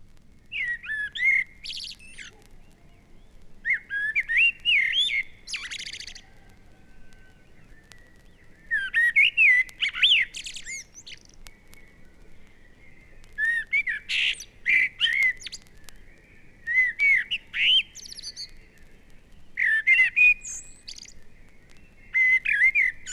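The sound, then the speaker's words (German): An urban common blackbird sings in a small town at the very start of its song period, giving loud, fluting and warbling phrases separated by short pauses, with a thin twittering end to several phrases, over quiet background hum. “diese Umstellung hat sich die Brutbiologie der Stadtamsel in mancher Beziehung geändert. Auch die Anzahl ihrer Gesangsmotive soll geringer als bei Waldamseln sein. Diese Aufnahme wurde unmittelbar bei Gesangsbeginn in einer Kleinstadt gemacht.”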